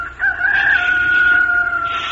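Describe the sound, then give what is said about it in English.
A rooster crows once in a single long, loud, strained call that holds a steady high tone for over a second before trailing off, over a low background hum. “The rooster started to crow.”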